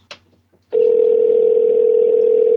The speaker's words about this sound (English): Okay, we're calling him now.